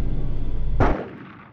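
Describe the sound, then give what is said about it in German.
A single gunshot fired to scare pigeons off a runway: one sharp, loud bang with a decaying tail, cutting through a steady low rumble that fades after the shot. “Die schießen auf Tauben. Vogelschlagverhütung.”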